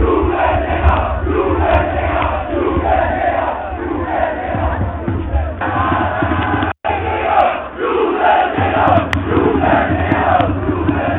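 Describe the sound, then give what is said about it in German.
Football fans chant loudly at a Hallescher FC Oberliga match. A dense, rhythmic roar of massed voices continues steadily throughout, briefly cut off once before resuming. “Und nun zum Fußball. Denn so klingt es bei den Spielen des Halleschen FC.”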